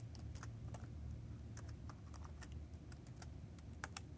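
Typing code into a source file on a computer keyboard: rapid, irregular key clicks at a soft level, running continuously over a low steady hum.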